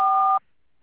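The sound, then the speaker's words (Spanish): A voicemail beep sounds once: a single steady electronic tone lasting about a third of a second, cut off sharply and followed by silence. “deje su mensaje después de la señal”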